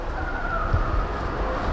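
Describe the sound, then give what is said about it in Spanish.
A time machine starting up as a comedy sound effect, a steady rumbling roar with a faint thin whine riding above it, continuous throughout. “¡Agárrate, que ponemos en marcha la máquina del tiempo!”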